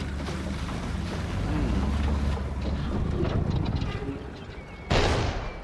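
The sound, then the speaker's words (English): A fishing boat moves through the water with a continuous, fairly faint low rumble of engine and wash mixed with wind noise, and a brief louder rush of noise near the end. “Now the Defiance moves through the water. The fisherman who chased the mermaid steers the boat.”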